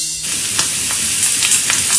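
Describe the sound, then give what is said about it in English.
A premium steak sizzling in a hot pan, a loud, steady hiss of frying fat broken by scattered crackles and small pops, with no talk. “Hear that? That's the sound of a premium steak sizzling to perfection.”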